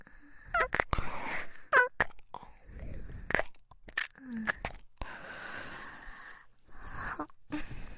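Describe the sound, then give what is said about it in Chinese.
Crunching of a mint lemon flavored candy, with close, crisp cracks and wet chewing in many irregular bites that rise and fall in loudness throughout. “又吃了一粒薄荷柠檬味的糖果，是不是很香？”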